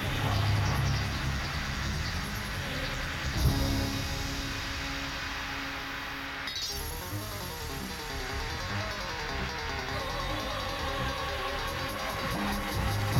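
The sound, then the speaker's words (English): A rocket motor test produces a steady, broad roar that runs without pause. A brief crackle and a shift in its texture come partway through, and no voices are heard. “This is the sound of a rocket motor test.”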